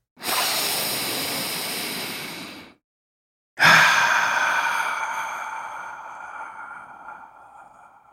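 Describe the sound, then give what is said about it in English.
A deep breath: two long, airy breath sounds separated by a short silence. The first is held steady, and the second starts stronger and fades away slowly. “Let's take a deep breath.”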